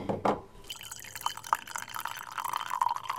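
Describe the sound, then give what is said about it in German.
Liquid drips and trickles as coffee is made and poured into cups. A few louder splashes come at the start, then a faint, steady patter of drips runs through the rest. “dann mache ich uns mal einen Kaffee. Nehmen wir hier die Tassen.”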